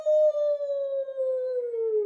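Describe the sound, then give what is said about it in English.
A wolf howls in one long, clear, sustained tone that slowly drifts lower in pitch over about two seconds, set in a story about ferocious wild beasts. “And soon they met a crocodile, snap, and a wolf, ow,”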